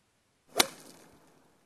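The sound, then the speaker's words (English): A golf ball being struck gives one sharp, bright crack that fades into a short airy swish, with quiet before and after. “I want to say a golf ball being hit. All right, let's lock you in on a golf ball. That is absolutely correct.”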